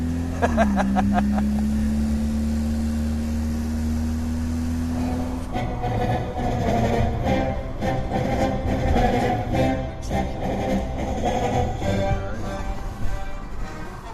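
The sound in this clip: A car drives around the suburbs with a steady engine drone. Early on a low, even tone rises slightly, then a busier, rattling road rumble takes over and runs continuously to the end.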